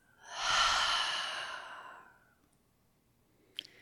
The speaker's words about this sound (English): Let's take one more deep breath in. And this time, open the mouth and exhale it out.